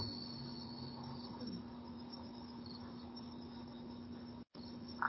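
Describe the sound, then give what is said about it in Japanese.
Bell crickets and several other kinds of crickets chirp in grassland on a plain, a steady, continuous, faint insect chorus with no voices. “その他何種類かのコオロギの仲間、この頃すずむしはなかなかあんまりおらないんですけど”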